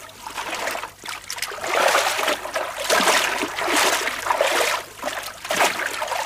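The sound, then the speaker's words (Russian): Water sloshes and splashes as someone wades in and drags a barrel ashore. Repeated surges of splashing and trickling rise and fall in uneven bursts, with short dips in between. “Заходит в воду, подхватывает бочку, вытаскивает ее на берег.”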